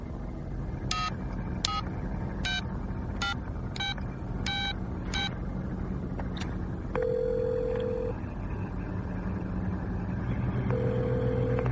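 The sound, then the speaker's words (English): A telephone number is dialed as a string of about seven sharp touch-tone beeps. Two long, steady ringing tones follow, separated by a pause. “Call me. Dial your number. Go ahead.”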